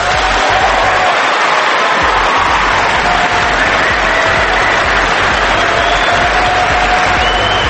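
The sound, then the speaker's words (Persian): An audience claps at an official meeting after promises from the podium, a loud, continuous wash of dense applause that holds steady throughout. “اونا هم که اون پای نشستن دست میزنن دیگه، فرق نمیکنه.”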